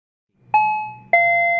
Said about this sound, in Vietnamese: Tiếng chuông cửa vang lên. Vi vội chạy ra mở cửa.